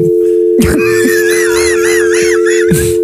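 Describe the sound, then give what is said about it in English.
A telephone dial tone hums loudly and continuously from start to finish. A warbling, wail-like sound and a few short bursts are layered over it. “You just got dial toned.”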